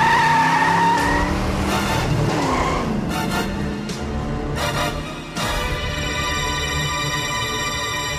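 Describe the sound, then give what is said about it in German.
Car tires squeal as the vehicle swings through a sharp U-turn, with engine noise underneath. Loud, continuous, high-pitched screeching rises and wavers, then settles into a sustained whine toward the end. “Als Tommy seinen Wagen in einem scharfen U-Turn drehte”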